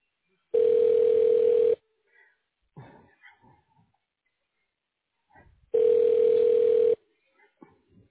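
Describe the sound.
A ringback tone sounds while a phone call is transferred to another office: two long, steady, mid-pitched tones, each over a second, separated by a pause filled with faint, scattered voices and small noises.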